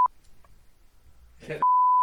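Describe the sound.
A censor bleep: a flat, high electronic tone cuts off a brief burst of talk in a German conversation and holds steady to the end. A short blip of the same tone sounds at the very start.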